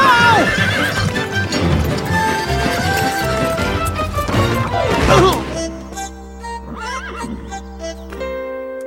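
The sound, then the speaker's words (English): Horse hooves clip-clop in a busy, uneven patter while a horse is ridden through the streets, then the horse lets out a loud, wavering neigh as the hoofbeats thin out. “I must be seen riding through the streets today. Whoa! Horsey! Whoa!”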